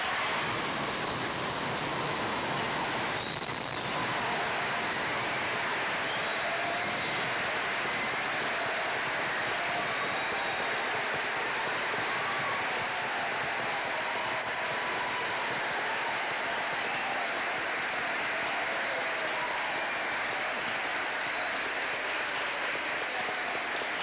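Audience applause welcoming the Reverend Dr. Martin Luther King to a sermon: a steady, dense wash of clapping that holds at an even level for the whole stretch, with no talk over it.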